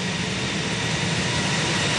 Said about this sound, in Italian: tutto lascia pensare che tra qualche istante ci sarà il rullaggio sulla pista. L'accensione dei motori.